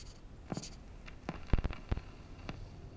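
Pen scratching on paper as a letter to the Führer is written: a few faint, short strokes and taps in a quiet setting.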